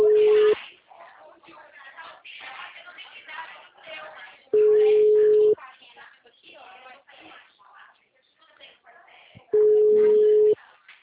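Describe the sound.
Telephone busy signal on an outgoing call: three long bursts of a steady, mid-pitched tone, each lasting under a second, with a person talking in the gaps between them.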